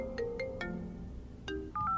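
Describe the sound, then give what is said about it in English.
A mobile phone ringtone plays a short electronic melody of clear, beeping notes at varying pitches. “I was just about to toss them back when my phone went off.”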